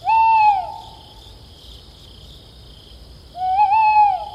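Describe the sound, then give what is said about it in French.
Tawny owl hoots twice, each call a clear, tonal hoot with a slight waver, separated by a few seconds of near silence. The second hoot is a little longer and more tremulous than the first. “La chouette hulotte, elle va avoir un plumage vraiment de camouflage.”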